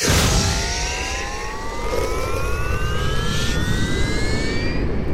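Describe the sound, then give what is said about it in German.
A spaceship launches with a loud, continuous roaring rumble. Thin whistling tones climb steadily in pitch across the roar, with no voices present. “Die blauen Engel fliegen ins All mit ihrer Weltraummüllstation. Der Countdown läuft. 5, 4, 3, 2, 1.”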